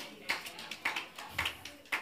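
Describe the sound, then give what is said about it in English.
Church audience clapping during a sermon: a faint run of sharp, unevenly spaced claps. “Oh, tell your neighbor, pastor is not going anywhere. What are you clapping for?”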